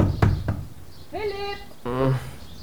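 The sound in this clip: Knocking on a door in a German audio drama: two sharp raps, followed by a voice calling out twice.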